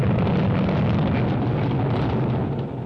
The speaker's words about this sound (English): in Dade County, Florida, as the giant 8-story-high solid rocket motor was fired, burning 6 tons of propellant per second